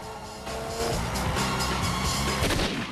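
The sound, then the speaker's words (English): Gunfire from a car during a street chase, heard as a dense, loud barrage of shots that blur into a continuous roar with no clear gaps. “A car rams into Rassan's tail. Shaft shoots at it from the back.”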